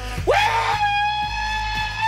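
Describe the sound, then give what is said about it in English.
A human scream, given as a demonstration: a loud cry that shoots sharply up in pitch, then holds as a steady, strained, ringing tone for well over a second, heard alone without talk. “who can give me a good scream. What you're going to sound like in the audience.”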